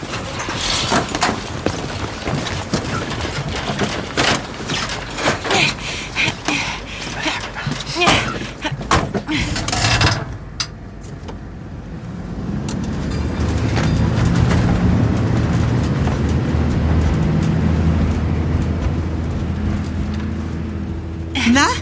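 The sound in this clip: A youth fire brigade's fire engine loading up and driving back: clattering thumps and bangs of doors for about ten seconds, then a steady, low engine rumble that carries on to the end.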